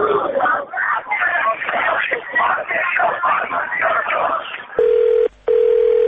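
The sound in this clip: A telephone call being dialed: two steady touch-tone keypad beeps ring out after muffled, narrow-band talk over a phone line.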